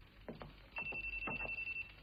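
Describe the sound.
A telephone rings in a tense indoor drama scene, with a rapid, evenly pulsing electronic trill. It is fairly faint over a low background hum, and a steady high tone sounds alongside part of the ringing.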